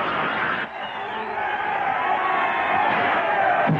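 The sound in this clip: An ice hockey crowd goes wild after a goalie's kick save in a 1945 Disney cartoon, a loud sustained roar of cheering and whooping that swells and stays steady.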